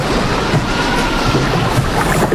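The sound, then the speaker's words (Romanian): Waves wash over a small boat in a loud, continuous rushing of water with a broad, hissing, wind-like roar. It swells slightly throughout without any clear break. “Stați, trec valuri peste lunte,”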